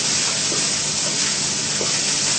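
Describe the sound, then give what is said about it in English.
Crumbled tofu sizzling as it is stir-fried in a pan, a loud, dense, steady hiss that holds evenly throughout without breaks or voices. “Stir fry it. Stir it well so it doesn't burn only one side.”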